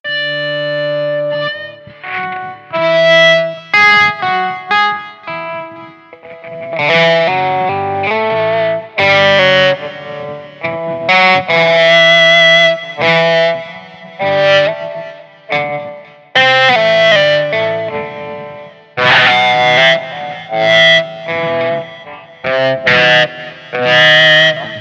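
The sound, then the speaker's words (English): An electric guitar played slowly with an EBow, giving long, smooth, sustained notes in an unhurried melody. Each note swells and fades, with distortion and a reverberant effect, and no voices are heard. “Yeah, some Ebo action there, and he plays it very slowly. He plays it way slower”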